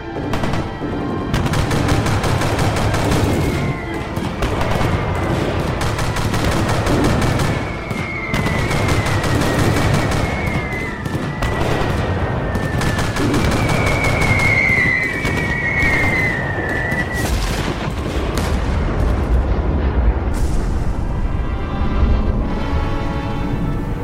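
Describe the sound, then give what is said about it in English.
Loud, dense gunfire from several guns opening up on an incoming bomb, a continuous volley of overlapping rapid shots that holds steady in volume throughout with no pauses. “We can't let it get any closer. Everyone, open fire immediately. The further we blow it, the better. Now!”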